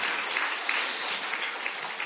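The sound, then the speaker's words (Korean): Congratulatory applause from a church audience honoring members who read through the Bible at least once; dense, steady clapping continues evenly for about two seconds without a break. “우리 1독 이상 하신 분들에게 우리 다시 한번 축하 박수 합시다.”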